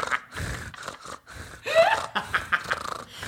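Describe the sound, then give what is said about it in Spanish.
A voice imitates the heavy, gasping breathing of a hunched man sitting at a desk: a few breathy, panting puffs and snorts in an uneven rhythm, with short pauses between them. “Ese güey que está hablando se siente así, se siente así como encorvado y respira así como.”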